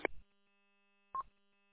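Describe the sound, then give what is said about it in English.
Two short electronic telephone tones, brief faint beeps separated by about a second of near silence. “No problem. Got a phone call.”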